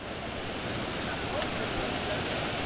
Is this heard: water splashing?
yes